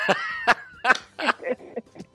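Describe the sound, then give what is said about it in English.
Several short, raspy coughs in quick succession, some with a voiced, laugh-like edge, moderately loud with no talk over them. “I'm starting to cough now.”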